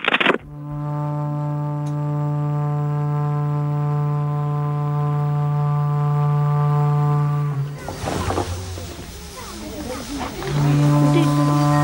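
A calf mooing as it is untied: a long, loud, steady low moo lasting several seconds, then a noisy rustling stretch, and then a second moo that starts and carries on to the end.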